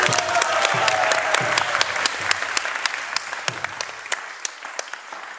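Audience applause for lecture facilitators: steady clapping from a crowd that gradually thins out, leaving sharper individual claps toward the end.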